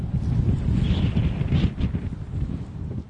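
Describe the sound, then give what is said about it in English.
Strong wind sweeps across open, boggy land of barren ground and tall dry grass, a steady low rumble buffeting the microphone throughout. “And there's wind, a lot of wind.”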